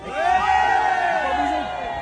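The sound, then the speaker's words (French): A crowd of workers and hospital caregivers shouts loudly in support of the public hospital, a sustained roar of raised voices that swells quickly and holds strong before easing off. “ce que je vous demande, c'est ensemble, ouvriers, tout ce qu'on est, les salariés et nous, les soignants, eh bien, crions fort pour protéger l'hôpital public.”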